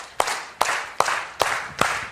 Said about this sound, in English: So everybody clap like this.